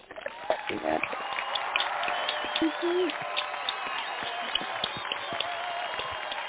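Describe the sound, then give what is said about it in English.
Audience applause at a live show, with dense, steady clapping and crowd voices mixed in, continuing under talk for the whole stretch. “Can we give them a round of applause? Round of applause.”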